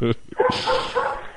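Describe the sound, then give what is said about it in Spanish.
A female dog barks and yips a few short times amid a conversation, the sharp bursts overlapping the talking voices. “que estamos escuchando al perro”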